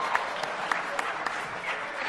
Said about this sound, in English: Okay, so you guys all are clapping